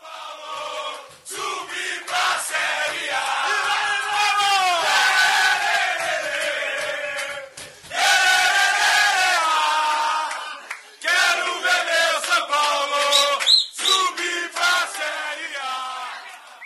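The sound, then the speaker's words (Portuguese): Football players celebrate qualifying in the locker room by loudly singing the traditional chants of the Mancha Rubro-Verde organized supporters' group from São Paulo. Shouts mix into the rowdy group singing, which stops briefly twice. “A gente tem aí o áudio dos jogadores comemorando, festejando essa classificação.”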